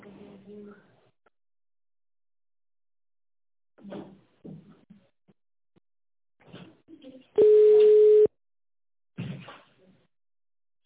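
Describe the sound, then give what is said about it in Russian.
A single steady ringback tone, about one second long, sounds on a telephone line as a call is transferred, between stretches of a recorded automated voice message. “Если ваш вопрос не относится ни к одной из указанных категорий, оставайтесь на линии, ваш звонок будет переведен на специалиста.”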